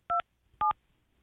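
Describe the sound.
Telephone keypad dialing tones: two short, clear electronic beeps, each a steady dual-pitched tone, separated by a brief silence.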